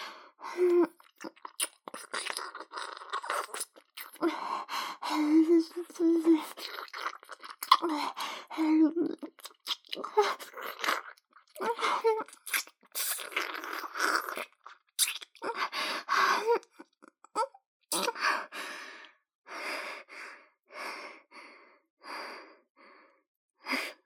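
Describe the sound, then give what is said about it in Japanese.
Wet, lip-smacking kisses during a first kiss come in many irregular, quiet bursts, mixed with soft sighs and heavy breathing throughout. “君、初めてのキスなのに上手だね。”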